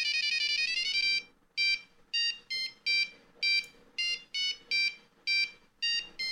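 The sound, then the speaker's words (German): A phone ringtone signals an incoming call, opening with a sustained, bright electronic tone whose pitch climbs slightly. Many short, evenly repeated beeping bursts follow, fairly loud and alone. “Oh, da ruft wer an.”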